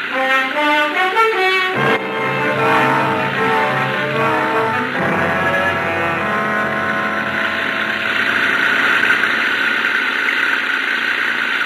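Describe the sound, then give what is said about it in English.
A French car's engine runs while the car is stuck in mud, giving a steady, loud, buzzing drone with a layered tone that shifts in texture after about two seconds and then keeps running evenly. “The French car, they're stuck in the mud.”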